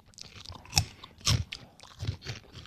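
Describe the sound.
Chewing of a crunchy, worm-shaped snack that smells of fermented milk, a few loud, crackling crunch bursts separated by softer mashing, with no voices.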